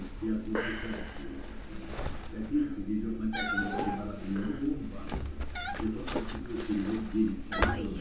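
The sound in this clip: A domestic cat meows a few times, each call short and high, over a steady low hum and faint household noises.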